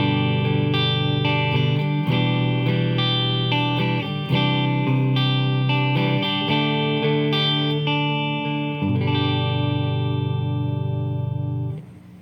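Electric guitar playing a G, E minor, C and D chord progression with G and D held as pedal tones on top: effects-laden chords change every couple of seconds and ring out before fading at the end.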